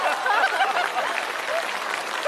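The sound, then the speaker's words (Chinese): Applause from an audience: a steady, moderately loud wash of many hands clapping for a little over two seconds, with no clear speech. “啊，有人鼓掌吗？”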